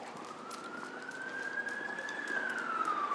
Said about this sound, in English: You can hear an emergency vehicle heading south toward Vauxhall.